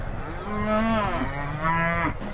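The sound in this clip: Cattle on an abbey's working farm with a herd of 80 head, giving two long, low moos one after the other.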